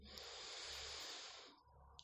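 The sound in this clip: A deep, airy inhale drawn in as a single breath of about a second and a half before chanting the mantra OM, then near quiet.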